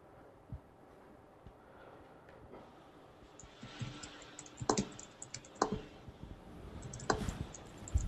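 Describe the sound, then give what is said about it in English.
Keyboard typing during a marathon retyping of a whole novel. Faint, irregular key clicks start sparse and grow denser and louder toward the end. “In response to Simon Morris's Getting Inside Jack Kerouac's Head, I am going to marathon retype all of Jack Kerouac's The Subterranean Institute.”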